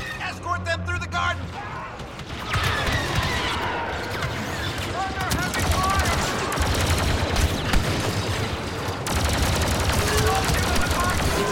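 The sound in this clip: Heavy gunfire from a sci-fi shooter video game battle against Imperial troops: a loud, dense, continuous rattle of overlapping shots and blasts that barely lets up.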